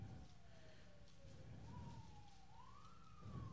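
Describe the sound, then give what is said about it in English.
A police siren wails faintly outside, its tone sliding slowly downward, then rising and falling again. It sits under a low rumbling background hum. “We'll just wait till the siren goes out. There's police around here.”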